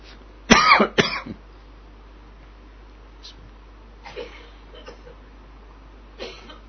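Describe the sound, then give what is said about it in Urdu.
People cough in smoke from something being burned indoors. A loud cluster of harsh coughs comes near the start, followed by a few fainter, scattered coughs at spaced intervals over low background noise. “چلو میرے ساتھ دوسرا بھی کھانسا بھائی۔”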